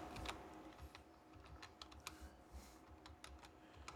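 Faint typing and clicking on a computer keyboard: many quick, irregular keystrokes tapping without pause, with no voices.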